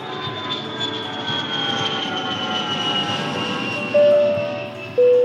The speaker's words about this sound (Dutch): Hey, eh, onze vlucht gaat eh, weer vertrekken richting Zambia.